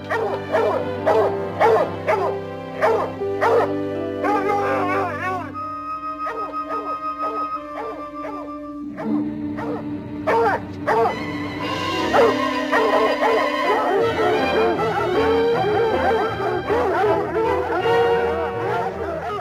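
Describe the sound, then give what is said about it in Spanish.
A pack of hunting hounds bays and barks as they chase a raccoon, giving loud, drawn-out howls mixed with sharp yips and whimpers. The calls come in many overlapping bursts throughout. “Al oír la jauría”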